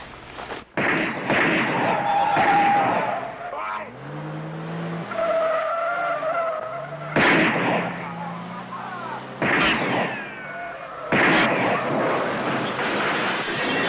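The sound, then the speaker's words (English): Gunshots ring out in a 1980 crime film scene: a few loud, sharp blasts spaced across a tense soundtrack full of vehicle noise and screeching tones. “And that is Gloria firing the shots, just in case you were wondering, 1980.”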